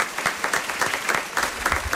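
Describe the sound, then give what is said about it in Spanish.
Applause for a radio drama cast opening the new radio fiction season at the new Teatro Luis del Olmo: dense, steady clapping with no voices, holding even for the whole two seconds. “Un aplauso para ellos.”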